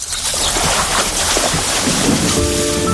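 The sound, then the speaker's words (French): Canoes glide on the Mississippi as paddles dip slowly into the water, giving a steady, full wash of water and wind noise with no clear break. “Les canots glissent sur le Mississippi. Leur pagaie entre dans l'eau avec lenteur.”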